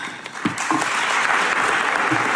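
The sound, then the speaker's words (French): Applause from the audience at the COP26 climate conference in Glasgow, a brief, steady patter of many hands clapping at moderate strength with no standout cheers. “Applaudissements nettement moins nourris, oui.”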